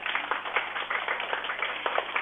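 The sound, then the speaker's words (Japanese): Audience applause at a school storytelling event: dense, steady clapping from many hands that holds an even level throughout, with no voices. “拍手お願いします。”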